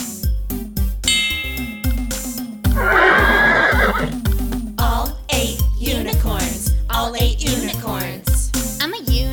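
A horse whinnies in one loud, shrill burst partway through, over bouncy, rhythmic music with a steady beat.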